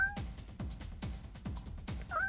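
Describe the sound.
Cat meowing, heard as many short, repeated calls in a steady rhythm, each with a quick downward drop, alongside a thin higher tone and some low background sound.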